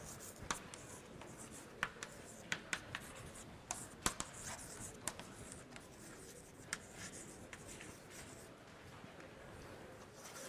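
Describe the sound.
Writing equations on a board during a physics lecture on Maxwell's equations: faint scratching strokes with many sharp taps scattered irregularly throughout.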